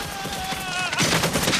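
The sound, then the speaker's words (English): Loud, rapid gunfire in a battle between soldiers and snipers, fired in dense bursts that run on to the end. “Bullets tear into Brown's body.”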